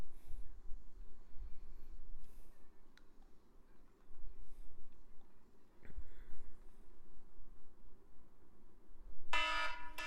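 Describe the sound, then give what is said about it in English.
An alarm clock's electronic alarm bursts on sharply near the end, loud and brief, after a long stretch of faint low rumble. “That's my alarm. Ugh. When I wake up in the mornings. Yeah, you're insane. It gets me up.”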